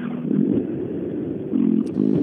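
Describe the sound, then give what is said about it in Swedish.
A Honda Civic Type R rally car engine drones with a low, steady rumble, swelling into throbbing louder stretches at the start and again in the second half. “Ja, en Honda Civic Type R den här.”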